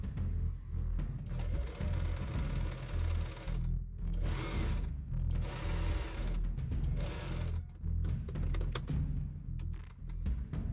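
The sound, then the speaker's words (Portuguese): A sewing machine stitching bias binding, cut from the same blouse fabric, along the edge of the yoke, its rapid mechanical whirring running loud and steady with a few short pauses between bursts. “Com o mesmo tecido, da, da blusa, eu cortei um viés e coloquei direito do viés com direito do tecido aqui da pala. E vou passar uma costura aqui na beirada.”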